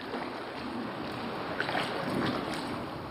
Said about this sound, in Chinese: 此刻科研人员正划船进入探测器内部，对这里的设备进行集中维修和更换。